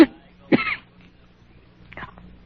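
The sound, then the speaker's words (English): Coughing from a feverish, weak patient during a doctor's bedside visit: a few short, harsh bursts, the first two strong and the last fainter, with quiet gaps between. “Cough hurts.”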